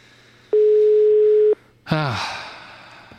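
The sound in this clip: A telephone tone on a blocked phone line: a single steady, mid-pitched beep lasting about a second, followed after a short gap by a brief burst of other noise.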